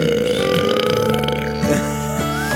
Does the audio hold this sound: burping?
yes

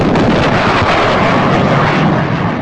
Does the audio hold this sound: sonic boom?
yes

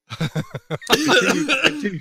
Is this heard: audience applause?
no

